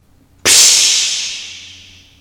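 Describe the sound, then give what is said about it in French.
Loud hiss from a glass of water poured onto glowing embers in an iron bucket, bursting in sharply and then fading steadily over about two seconds with no other sound. “L'ingénieur prend un verre d'eau et le verse sur la braise.”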